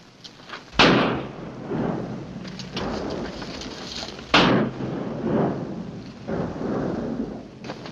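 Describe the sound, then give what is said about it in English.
Two gunshots are fired into a dead man's body in a western film, each a sharp, loud bang with a long rumbling tail. They come a few seconds apart over a steady, noisy background. “John Wayne shoots the eyes out of a dead man.”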